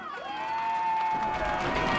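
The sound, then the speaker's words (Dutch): A crowd in Taiwan cheers loudly at a stage event celebrating the end of SARS, with a sustained, dense roar of voices lasting about two seconds. “Luid gejuich in Taiwan.”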